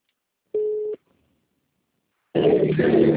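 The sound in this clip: A call-waiting beep on a phone line during a sales call: one short, steady, mid-pitched tone, then near silence, then a louder muffled burst of sound.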